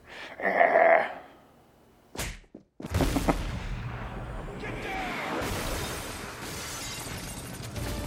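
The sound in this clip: Gunfire as agents open fire near a child: a few sharp, loud cracking bursts, then dense, sustained noisy blasts with voices.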